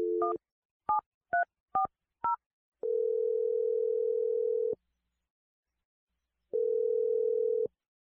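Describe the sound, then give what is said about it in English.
A telephone is being dialed with five short, evenly spaced touch-tone keypad beeps. Two long, steady ringback tones follow, separated by a silent gap. “Here we go. I'm dialing the number.”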